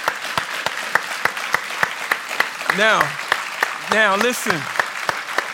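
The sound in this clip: An audience applauds, with loose, fairly regular claps running through the whole stretch while voices rise briefly over the clapping twice.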